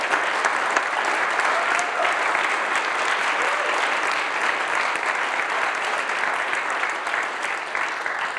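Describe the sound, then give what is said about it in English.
A church audience applauds to thank a member for his service, a sustained, even wash of clapping from many hands that stays loud and constant without a break. “And if you will, you just applaud.”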